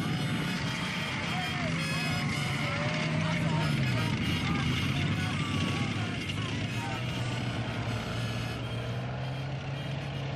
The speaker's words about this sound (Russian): По грунтовой дороге быстро едет легкий немецкий танк. Он виляет из стороны в сторону, корпус и башни прикрыты маскировкой из веток.